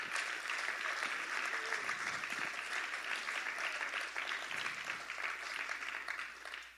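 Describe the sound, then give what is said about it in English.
An audience applauding to show appreciation, a full, continuous round of clapping that stays steady and then tapers off at the very end. “Would you give them a big hand shake? Just a big hand clap one more time.”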